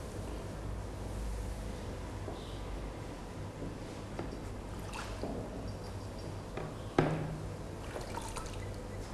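Water trickles and splashes as a dish is rinsed in clean water during a dish-washing lesson. The sound is a steady, low wash with one sharper clink near the end.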